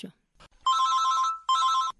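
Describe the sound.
Two bursts of an electronic telephone ring, each a bright, even trill, signal a listener calling in to a radio health clinic, after a brief clipped voice fragment at the start.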